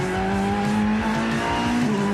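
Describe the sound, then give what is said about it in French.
Racing cars roaring continuously, with loud engine drone, shifting engine notes and squealing tires, no voices. “quel plaisir de courir dans nos voitures.”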